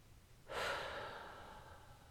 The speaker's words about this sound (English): Breathe out love. Breathe in peace. Breathe out peace.